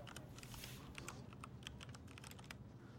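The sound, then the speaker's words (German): Someone types an email on a computer keyboard, a quiet, continuous, irregular patter of keystrokes over steady background noise. “Bezos dreht sich zu seinem Computer und schreibt eine E-Mail.”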